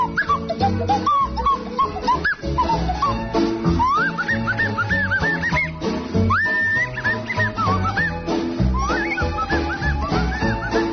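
Whistling blown out through the nose produces warbling, sliding high notes in quick bursts and swoops. It is loud and continuous over a busy, rhythmic background.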